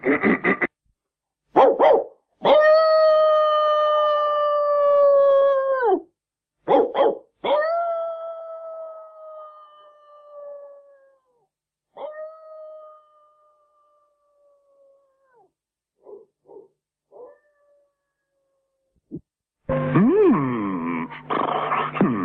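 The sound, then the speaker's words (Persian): A dog howls and barks: long, sustained, tonal howls that sag in pitch as they end, broken up by short sharp barks and gaps of silence, with a harsher, noisier burst of vocalizing at the close. “اینکه صدای تازر پیره خودشه، این یه اعلام خطره.”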